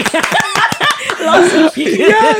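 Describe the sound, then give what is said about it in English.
A few quick hand claps mingled with laughter and chatter between people talking together, with talk taking over toward the end. “Hey, let's just give you a round of applause for just saying that.”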